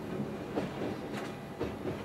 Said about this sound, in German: Mit maximal 70 Kilometern pro Stunde steuert der Lokführer den Zug in Richtung Chamonix.